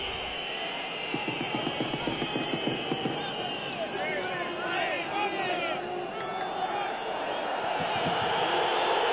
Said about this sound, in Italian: Fischi da parte del pubblico per quello che sta succedendo.